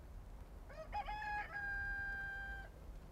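A rooster crows once on a farm where chickens loll in the dust. The faint crow rises through a few short notes into a long held tone that cuts off sharply, over a low rumbling background.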